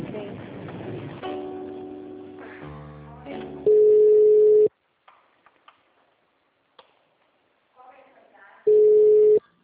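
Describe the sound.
Telephone line tones during a call transfer: two long, loud, steady beeps at the same mid pitch, separated by a quiet gap with scattered clicks, after an opening stretch of voices and shifting stepped tones.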